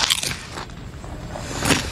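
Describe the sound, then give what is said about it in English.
Crunching of air-popped snack chips being bitten, dense crackly bursts of crisp noise running throughout, fairly loud and with no talk. “Aaron Paul and Bryan Cranston in their Breaking Bad roles, only this time they're hawking some delicious snack chips.”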